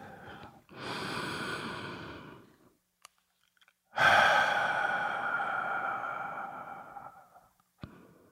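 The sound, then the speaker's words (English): A deep breath, taken as a breathy inhale of about two seconds, a brief pause, then a longer, louder exhale that slowly tapers off, with a couple of small mouth clicks in the gaps. “So, if you are ready, let's take a deep breath.”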